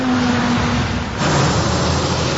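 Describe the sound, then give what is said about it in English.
Heavy transport trucks and other traffic on a busy stretch of Huron Church Road make a loud, continuous road rumble. It holds steady throughout, with only a brief dip in the middle. “the sound of transport trucks has long been part of everyday life along Huron Church Road”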